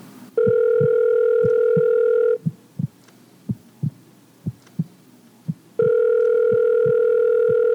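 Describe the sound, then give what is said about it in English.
Telephone ringing on a call, with two long, steady electronic ring tones. A regular, low heartbeat thump runs underneath and continues through the quiet gap between the rings. “The volume increased with every ring of the telephone.”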